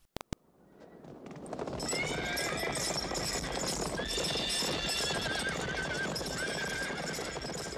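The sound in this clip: Galloping horses: hoofbeats build within two seconds into a dense, continuous drumming clatter. High neighs and whinnies ring out repeatedly over the pounding, which stays loud to the end.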